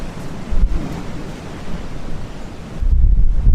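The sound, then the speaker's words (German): Atlantic Ocean waves and strong wind heard from a rocking ship deck: a steady, loud roaring wash with heavy low rumbling wind buffeting the microphone, surging even stronger toward the end. “Aber das, du hörst jetzt, das ist der Atlantik.”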